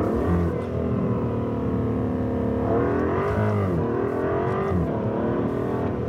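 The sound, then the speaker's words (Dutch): Aston Martin engine accelerating on a race circuit with a banked curve: a loud, sustained, steady engine drone whose pitch dips and climbs again a couple of times as the revs change. “De hoogste tijd om met hem het circuit te verkennen in een Aston Martin.”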